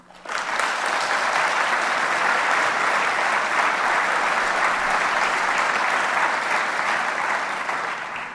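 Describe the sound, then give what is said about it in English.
Applause from a conference audience: dense, steady clapping that starts abruptly and holds at an even, loud level for about eight seconds, with no speech over it. “ask this audience by applause who agrees with me that there should be some significant consequence to the folks at Allied Capital for what they have done.”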